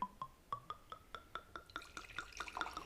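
Wine from Ica poured from a bottle into a glass: a rapid, steady series of many small glugs whose pitch climbs gradually as the glass fills. It is faint, with no talk.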